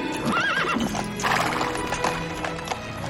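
Hooves of a horse pulling a carriage clip-clop in a steady, continuous rhythm, with a brief whinny near the start.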